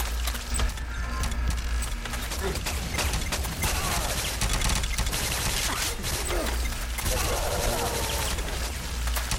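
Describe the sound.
Rapid gunfire from a video game rattles in dense bursts throughout, mixed with mechanical clicks and clatter, while players talk over it.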